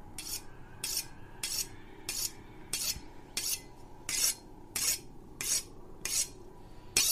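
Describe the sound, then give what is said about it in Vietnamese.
A knife is sharpened with harsh, raspy metal grinding: many evenly spaced strokes repeat steadily, each a short, bright scrape, with no voices. “Là âm thanh mài dao. Tiếng mài dao ken két, ken két.”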